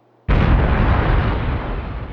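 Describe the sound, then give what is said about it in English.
An unexplained explosion rings out as a sound effect: one sudden, loud blast that hits sharply, then becomes a dense, sustained rumbling roar that fades only slowly. “we could run away from the unexplained explosion, steal a ship, and fly into the Hushlands with guns blazing”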